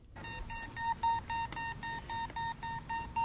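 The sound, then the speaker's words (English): Beeping ball used in beepball, softball for visually impaired players, giving a steady rapid series of short, faint, high electronic beeps at an even rhythm. “that's the sound of beepball. It's a take on softball, and the players are visually impaired.”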